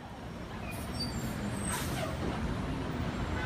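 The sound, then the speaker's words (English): Street traffic at the corner of Wall and Broad Street makes a continuous low rumble of engines. Brief hissing bursts, like truck or bus air brakes, rise above it. “Here we are on the corner of Wall and Broad Street, one of the most like famous corners in America, right?”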